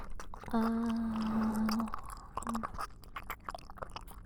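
Someone chewing a sandwich: a steady hummed vocal tone comes first, then a run of soft, wet crunching and mashing sounds at low volume.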